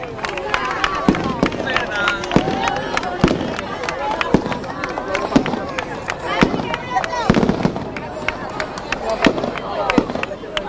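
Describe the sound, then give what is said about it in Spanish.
Fireworks open the September fair of 2023 with many sharp bangs and crackling bursts, scattered irregularly across the whole stretch, while a man keeps talking over them. “pues ahí queda inaugurada la feria de septiembre de este año 2023, los fuegos artificiales que ponen el punto y seguido a lo que ha sido darle al botón”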